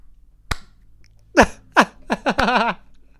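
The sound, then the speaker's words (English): Two slow, deliberate hand claps land well apart, crisp and isolated, with short vocal sounds filling the gap between them. “I'm slow clapping you, and then I'm going to follow it up with a nice cursory point click.”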